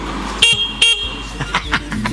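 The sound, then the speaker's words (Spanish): Two short, loud car horn blasts sound from a car waiting outside, spaced under half a second apart, followed by a few fainter, softer knocks and bumps. “Estoy afuera. ¿Cree que toque bocina? Toco.”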